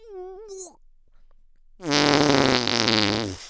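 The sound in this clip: A long, loud, low buzzy fart rumbles for nearly two seconds after a shorter, higher wavering sound and a quiet pause, its rough vibrating tone holding steady before trailing off.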